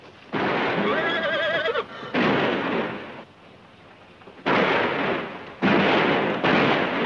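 Heavy gunfire in an ambush comes in four long, loud roaring bursts. Each starts abruptly and is separated by quieter gaps.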